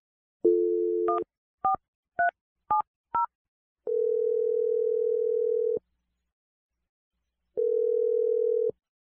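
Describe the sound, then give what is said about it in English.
Telephone dialing a number: a steady dial tone gives way to five short keypad beeps of varying pitch, then two long, even ringing tones separated by silence. “We're going to give it a shot. I'm dialing it right now. Here we go.”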